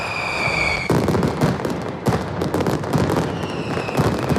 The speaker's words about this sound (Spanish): Una mascleta que en esta ocasión ha ido a cargo de Pirotecnia Mediterráneo.